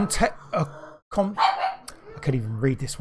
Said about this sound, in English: Dogs are happy.